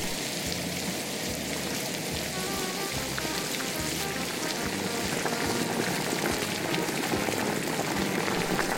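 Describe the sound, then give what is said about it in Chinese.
Pork shoulder strips simmering in stock give off dense, steady bubbling and hissing, an even wash of small pops that holds at the same level throughout with no voices. “爆香了以后把梅花肉条放进去、炒，大概炒到翻炒五分钟，然后再加入这个高汤，去煮。”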